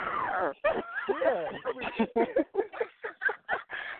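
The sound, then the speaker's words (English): A person growls and yips like a dog, the voice imitating the animal in many short, rough bursts that come in a choppy, uneven rhythm over about four seconds. “I ain't never growled on my show. You got me up here growling.”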